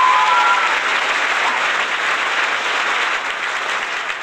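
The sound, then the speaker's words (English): Live studio audience applause rolls on steadily, a thick, even wash of many clapping hands at constant loudness, alone without talk, easing slightly toward the end. “What was that? That is our live studio audience.”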